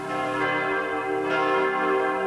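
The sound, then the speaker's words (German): Church bells ringing with rich, sustained tones and layered overtones that hum continuously at a steady, fairly loud level throughout, the strikes blending into one another. “Die Kirchenglocken läuteten”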